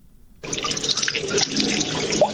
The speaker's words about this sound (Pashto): د اوبو دا شور په برمرانه کې موجود جوړ شوی تالاب دی.